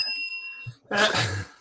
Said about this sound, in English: to explain the bell, being an American, every time he uses an English phrase, ding, the bell goes.